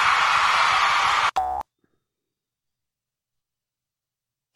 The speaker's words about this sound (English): Ooh, yes. Boing.